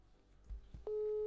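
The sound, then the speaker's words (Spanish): A telephone busy signal heard while placing a call: after a couple of soft clicks, a steady low-pitched beep begins and holds to the end, faint and heard alone. “Vamos a llamarle al gobernador. Vamos a llamarle a todos.”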